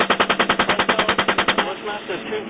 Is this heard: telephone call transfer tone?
no